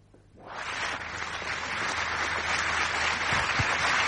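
Audience applause as two guest artists are invited onto the stage: clapping swells quickly after a brief quiet start, then holds as a steady, dense wash of many hands.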